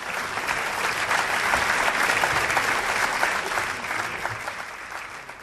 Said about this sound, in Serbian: I ako vi ne počnete da aplaudirate, ja ću da ponavljam.